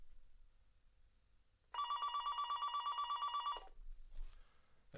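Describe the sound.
A telephone rings with an incoming call: one loud trilling ring of rapid, evenly pulsed bell tones that lasts about two seconds and then stops abruptly, with faint low noise before and after.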